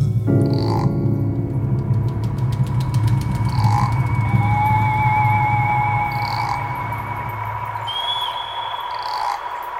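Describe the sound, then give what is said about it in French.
Frogs croak in a dense, continuous low chorus in a Brière marsh, with birds calling over them in a few clear, high whistled notes. The croaking thins out near the end while the bird calls continue. “Je suis sûr que quand vous avez entendu ces cris d'oiseaux, ces croassements de grenouilles, vous avez cru que je vous avais entraîné, moi, dans la brière, à la suite du texte de Marcel Schwab”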